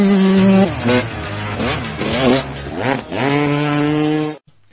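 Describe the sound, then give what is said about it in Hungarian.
A Turbo Spoke bicycle exhaust system, with cards flapping against the wheel spokes, makes a loud, buzzy motor-like drone. Its pitch climbs and drops repeatedly like an engine being revved, then cuts off abruptly. “Akkor most ebből az alkalomból meghallgatjuk a Turbo Spoke nevű bicikli kipufogó rendszer hangját. Turbo Spoke, the bicycle exhaust system.”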